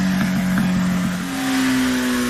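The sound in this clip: A motorcycle engine revs at a biker gathering with a loud, steady droning hum. Its pitch steps up a notch midway as the throttle opens, then holds at the higher tone.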